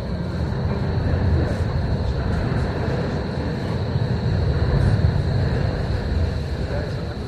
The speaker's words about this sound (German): So, da ist sie, die M4, zum Einsteigen, bitte. Ja, so klang das vor 4 Jahren.